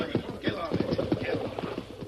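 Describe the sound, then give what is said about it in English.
Hooves of horses driven at a run toward quicksand in a radio drama, a rapid, steady pounding rhythm at moderate loudness. “Whip up them horses. Run them into the sink.”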